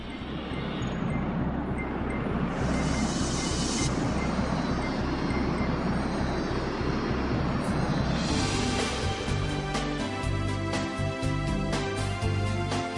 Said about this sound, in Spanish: En la estación central tomamos una de las 3 líneas del metro, recorriendo el tramo subterráneo hasta la estación de Waterlooplein.